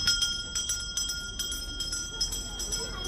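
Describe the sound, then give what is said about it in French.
A school bell is rung to end recess at a school in Jordan for refugee children from the Mosul region, giving many quick, regular metallic strokes with a bright ringing tone over background murmur. “Le père Khalil Jar sonne la fin de la récréation. Nous sommes dans une école assez particulière en Jordanie.”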